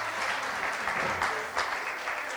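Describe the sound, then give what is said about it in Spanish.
Audience applause at an afternoon concert by a band with saxophones: dense, steady clapping with a bright hiss that holds at an even level throughout the short stretch. “Muchas gracias. Muchas gracias por el aplauso.”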